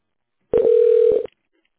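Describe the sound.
Telephone line tone while a call is transferred: one steady, loud electronic beep lasting under a second, cutting in sharply and stopping abruptly, with silence before and after.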